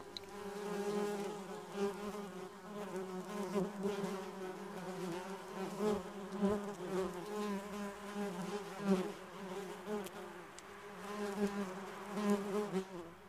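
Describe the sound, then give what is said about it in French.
A bee buzzing: a continuous, wavering insect drone with a rich, slightly fluttering tone that swells and fades a little, faint and alone without any talk. “Je suis l'abeille, bourdonna l'insecte.”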